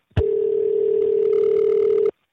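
A Skype outgoing call tone sounds as a single steady, mid-pitched electronic tone that holds for about two seconds at constant loudness and then stops abruptly, heard alone.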